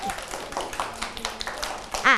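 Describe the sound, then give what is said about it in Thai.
Children clap to welcome a teacher, a quick, uneven patter of small claps running under an adult woman's talking. “อะเด็กๆปรบมือต้อนรับคุณครูแพรกันหน่อยค่ะ”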